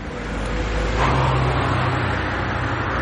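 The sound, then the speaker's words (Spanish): An SUV approaching on a street in a crime thriller scene: a broad, steady engine and road roar that swells a little after the first second, then holds. “Un todoterreno se acerca.”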